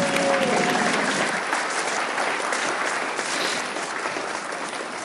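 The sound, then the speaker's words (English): Audience applause for a performer at a recovery meeting: dense, steady clapping that holds throughout and eases slightly toward the end, with no talk over it. “Let's give it up for Bobby one more time.”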